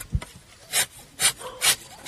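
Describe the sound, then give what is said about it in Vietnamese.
A tapping knife scrapes rubber tree bark on a plantation to open a fresh cut for latex, making four evenly spaced dry rasping strokes after a single low thump at the start. “chị bóc mủ dây bám trên đường cạo, lột mủ bám trong lòng bát, rồi đưa dao cạo đường cạo mới. Một dải vỏ cây được lóc ra,”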